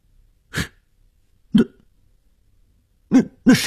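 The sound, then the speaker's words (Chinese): A woman coughs in four short, separate bursts: two spaced well apart, then a quick pair close together. Each is brief and clear against silence, with no talk. “女人的咳嗽声？”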